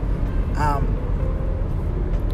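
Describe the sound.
A steady, low rumble of engine and road noise inside a moving car, holding even in level throughout, with a short vocal sound rising briefly above it near the start.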